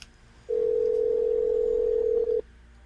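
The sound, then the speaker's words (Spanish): A Skype call being placed produces a single steady, mid-pitched dialing tone. It holds evenly for about two seconds, then cuts off sharply, with no voices over it. “Y tenemos aquí ya el número de él listo en el Skype para hacer la llamada oficial.”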